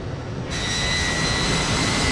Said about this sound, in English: The plane thunders along the runway and into the air.